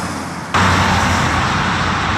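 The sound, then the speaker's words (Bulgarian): Heavy Friday-afternoon traffic on the Trakia motorway: a dense, steady roar of passing vehicles that cuts in abruptly after a quieter first half-second, then holds loud and even to the end. “Петък следобед. Тръгваме по Тракия. Трафикът е натоварен”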